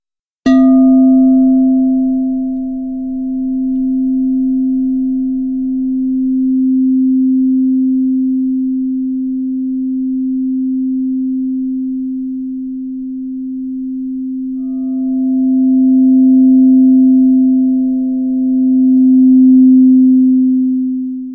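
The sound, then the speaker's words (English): A crystal singing bowl rings a pure C note as a single steady, loud sustained tone. It gently swells and ebbs in slow waves for about twenty seconds, with nothing else heard. “When you listen to the purity of that crystal bowl, you know, it's a pure note of C.”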